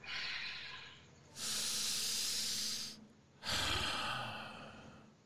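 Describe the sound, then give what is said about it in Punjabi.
A deep breath is drawn in and let go during a group breathing exercise led by a pastor, heard as two long, loud, airy rushes of breath separated by a brief quiet pause. “ਲੰਮਾ ਜਿਹਾ ਸਾਹ ਅੰਦਰ ਨੂੰ ਖਿੱਚੀਏ, ਸਾਹ ਕਰੀਏ, ਸਾਹ ਲਈਏ, ਕੋਈ ਲੰਮਾ ਜਿਹਾ ਸਾਹ ਲਈਏ ਸਾਰੇ ਜਣੇ”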